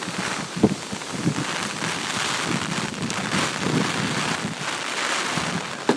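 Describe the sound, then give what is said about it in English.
Rain falls on an open umbrella, making a steady, dense patter. The hiss stays even and unbroken throughout, with faint scattered drips and no voices. “You can kind of hear the rain lapping up against the umbrella.”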